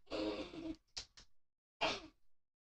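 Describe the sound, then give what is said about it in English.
A basketball commentator takes a quick drink: a breathy vocal sound, two short gulp-like noises, then an airy exhale. “Let me take a little drink.”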